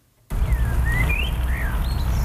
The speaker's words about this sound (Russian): Шум города остается где-то далеко позади. Поют птицы, пахнет свежестью.